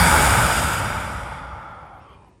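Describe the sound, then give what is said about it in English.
A deep exhale during a breathing exercise: one long, airy rush of breath that starts full and fades steadily over about two and a half seconds, with no voice over it. “take one more deep breath in through your nose with gratitude. Exhale and just arrive wherever you are.”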